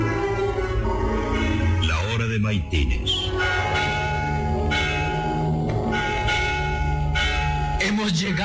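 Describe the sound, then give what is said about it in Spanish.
A church bell rings to call the faithful to Matins prayer, its dense, sustained tones sounding loudly and continuously throughout, with the ringing swelling and shifting slightly midway. “Es la campana que llama a coro para el rezo de Maitines.”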